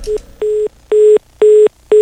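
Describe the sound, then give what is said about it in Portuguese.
A telephone busy tone follows a dropped call: a loud, clean run of identical mid-pitched beeps, evenly spaced with equal silences between them, repeating without any other sound. “Caiu a ligação, né?”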